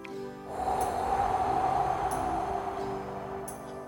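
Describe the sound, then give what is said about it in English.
A deep breath blown out slowly during a calming breathing exercise: one long, soft, steady breathy rush lasting about three seconds, faint and alone with no talking. “take one more deep breath in and blow the last cloud away”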